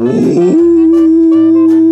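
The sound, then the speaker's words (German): A dog gives a long, loud howl like a drawn-out letter O. After a rougher start, it holds a steady pitch to the end with nothing else around it. “Der Hund kann überhaupt nicht sprechen. Das ist eine unverschämte Behauptung. Der Hund beherrscht nur einen einzigen Buchstaben. So etwas wie O.”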